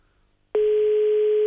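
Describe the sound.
Ringback tone while a telephone call is placed: after near-silence, a single steady, mid-pitched ring starts abruptly and holds at an even volume until the end.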